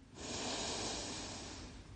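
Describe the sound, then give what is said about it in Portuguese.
A long, deep breath drawn in to fill the chest with air, heard as a soft, airy rush that starts abruptly and holds fairly steady for nearly two seconds, quiet and alone. “profundamente, enchendo o peito de ar na inspiração”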